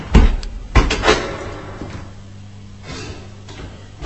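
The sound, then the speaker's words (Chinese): An unlocked door is opened, starting with a few sharp clicks and knocks in the first second. A quieter stretch with a low hum follows, then a faint knock at the end. “发现佢冇锁门，等我入去睇下先。”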